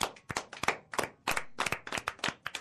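Hand clapping for everyone from a small group: crisp, separate claps that come in irregular clusters, fairly quiet, with brief gaps between bunches.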